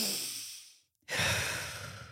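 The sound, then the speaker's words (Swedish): A deep breath: a long airy rush of air that fades away into a moment of silence, followed by a stronger, fuller breathy rush that slowly tapers off. “Nu tar du ett djupt andetag.”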